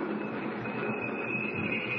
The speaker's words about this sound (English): Train's slowing down. Coming into a station, I guess.